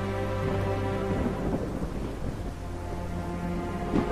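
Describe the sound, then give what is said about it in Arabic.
Steady rain falling as a continuous dense hiss with a low rumble underneath and a faint sustained tonal hum, no voices. “ده أنسب وقت، المطر شغال”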